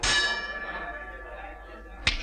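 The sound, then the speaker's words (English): A boxing ring bell clangs, its bright metallic ring decaying slowly, then is struck a second time near the end. “The pig rings the bell.”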